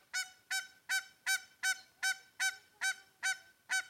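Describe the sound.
A dominant white-fronted goose calls in ten evenly spaced, nasal honks, each short and bright, repeating at a steady clip of roughly two per second.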